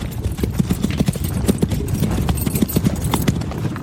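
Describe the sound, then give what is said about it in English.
Hoofbeats of horses ridden at pace, a rapid, uneven clatter of many hooves that continues throughout at a steady moderate loudness. “Lyssa, Kreyvex, and Kumara found themselves riding past the entire army of Gav, headed towards the royal city, armed for war and equipped for a siege”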